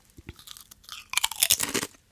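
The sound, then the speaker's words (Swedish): Potato chips crunch while being eaten: a couple of soft, separate bites, then a louder, rapid run of crisp crunches and chewing, with no talking. “Chips, för du håller chips i handen.”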